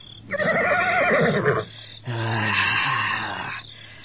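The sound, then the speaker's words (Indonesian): A somewhat wild horse whinnies in two loud, drawn-out neighs separated by a brief pause, the second steadier and lower. “Jangan berisik kuda tolol.”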